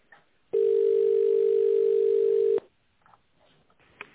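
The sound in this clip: A telephone ringback tone sounds as an office call is transferred: one steady, even hum of about two seconds, cutting off abruptly into near silence with faint line noise.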